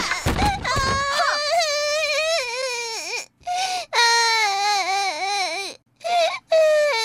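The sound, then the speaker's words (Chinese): A child cries loudly in long, high, wavering wails, broken by a few short pauses for breath, with sobbing pitch swings throughout. “乖，不哭不哭，奶妈看看啊。”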